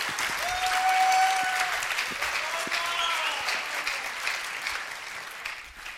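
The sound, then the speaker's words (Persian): Audience applause, a steady wash of many hands clapping, with a voice speaking over it in the first half. The clapping carries on and thins slightly toward the end. “تشویق کن. مرسی. دستتون دارم. محکم تشویق کنین دیگه.”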